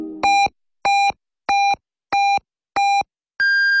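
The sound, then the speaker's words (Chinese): Radio hourly time signal from a sports station: five short, evenly spaced beeps at one pitch, then a final longer, higher-pitched tone. No voice is heard over them. “北京体育广播 FM1025 提示您，现在是北京时间22点整。”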